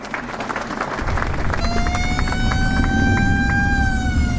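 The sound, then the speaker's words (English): A convoy of old American army jeeps drives past during liberation ceremonies in Reims. Loud engine rumble and crowd noise swell after the first second, and a sustained horn-like tone holds over the noise. “A convoy of old American army jeeps just driving past me.”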